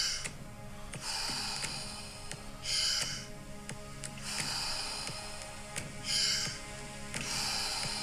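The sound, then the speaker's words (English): Deep circular breathing with no pause between inhale and exhale: slow, rushy breaths swell and fade in a steady repeating cycle, a few stronger ones standing out, over a soft sustained tonal background. “Ten more. Fully in. Let it go. Nice, deep, circular breaths.”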